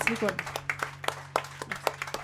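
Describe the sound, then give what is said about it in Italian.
A studio audience applauds a guest blues singer: a brief voice at the start, then a run of sparse, crisp claps in an uneven rhythm, moderately loud. “Irene Locke a Radio X, un applauso per lei.”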